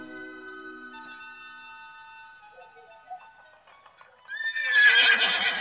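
A horse neighs in one long, wavering high whinny that runs for several seconds, then gives way to a louder, rough noisy burst at the end. No voices are present.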